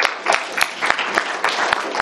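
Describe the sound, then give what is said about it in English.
An audience claps after a lecture, a brief burst of brisk, fairly loud applause with sharp, rapid hand claps overlapping in a steady patter for about two seconds. “Let's have a round of applause.”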